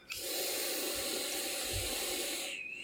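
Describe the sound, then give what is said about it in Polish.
A long, airy hiss of someone inhaling from a nicotine vape, steady and unbroken for about two and a half seconds before cutting off. “Przepraszam bardzo brałam mojego bucha nikotynowego e, przypisanego przez doktora.”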